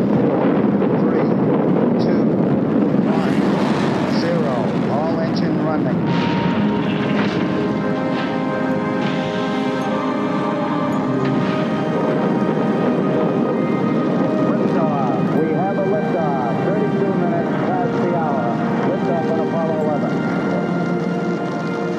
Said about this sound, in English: That was a recording of the Apollo 11 takeoff, July 1969.